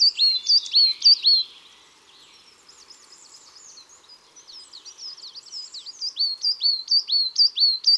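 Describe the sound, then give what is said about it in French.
A coal tit sings in a conifer forest with thin, clear, high-pitched two-note phrases repeated in quick series. A loud opening burst gives way to a quieter stretch of soft twittering before the rhythmic phrases return strongly. “Dans la même forêt, s'il y a des résineux, on entendra sûrement la petite mésange noire et son joli chant.”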